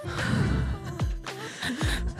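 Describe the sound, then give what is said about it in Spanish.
A woman breathing audibly, a few heavy breaths with a sighing, gasping quality, moderately loud and with no speech. “No tiene audio. Pueden oírme respirar por mientras.”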